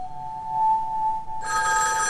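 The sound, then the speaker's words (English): A telephone rings inside a phone booth on a deserted sidewalk. A steady electronic tone gives way partway through to a bright, continuous bell ring that carries to the end. “He glances behind him and trots to the ringing phone.”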